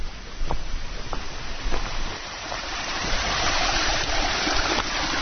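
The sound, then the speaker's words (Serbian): A cold, clear river flowing: a continuous broad rushing wash of water, steady and moderately loud throughout, with a few faint clicks and splashes within the flow. “Hladna reka. I čista kao suza.”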